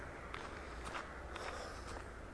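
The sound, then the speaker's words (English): Footsteps on a walk across fields: soft, faint, evenly spaced steps over a steady low background hiss. “So I'm just taking a nice walk across some fields.”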